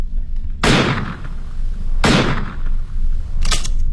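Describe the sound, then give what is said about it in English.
Three loud revolver shots fired into the sky as the gun is emptied, each a sharp crack with a short decaying tail, spaced roughly a second and a half apart. “Raise your revolver to the sky, Mr. Holmes. Empty it.”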